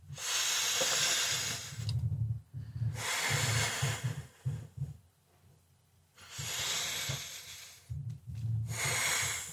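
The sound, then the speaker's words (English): Two slow, deep breaths, each a long and loud breathy rush in and out, heard alone with no talk and brief quiet gaps between them. “And let's just take 2 deep breaths to get centered and calm.”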